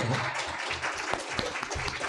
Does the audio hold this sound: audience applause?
yes